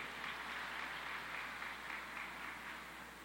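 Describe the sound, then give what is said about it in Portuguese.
Faint applause for the winner of a prize draw, a soft, even wash of clapping sustained throughout and tapering slightly at the end over a low hum. “uma salva de palmas para a ganhadora.”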